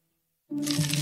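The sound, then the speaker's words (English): Corn pests chewing through corn crops: a dense crackling, crunching noise that begins abruptly after silence and holds steady. “This is the sound of corn pests wreaking havoc on your crops.”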